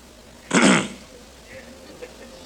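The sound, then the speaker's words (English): One short, loud throat clearing, performed by a speaker to act out the sound, followed by faint low murmuring. “They clear their throat.”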